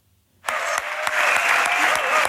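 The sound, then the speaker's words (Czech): Standing ovation from a full large hall at Hotel Thermal during the 60th Karlovy Vary International Film Festival, greeting actress Juliette Binoche. Loud, dense clapping bursts in after a moment of near silence and holds steady to the end. “Bouřlivým potleskem ve stoje přivítal Juliette Binocheovou plný velký sál hotelu Thermal.”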